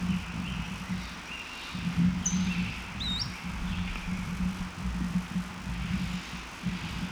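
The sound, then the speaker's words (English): Faint bird calls giving position notes: a couple of short, high chirps that rise quickly, heard over a steady low engine-like drone. “Another bird in the background giving position notes.”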